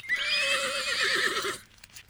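A pony whinnies in a field, her head collar caught in a fence: one long, loud neigh of about a second and a half with a wavering, trembling pitch, then fading to near quiet.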